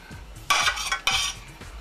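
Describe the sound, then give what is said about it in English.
A mixture is added to a bowl while cooking. A utensil makes two distinct scraping clinks against the dish, each about a quarter second long, with quiet low knocks around them. “Add the mixture to the bowl.”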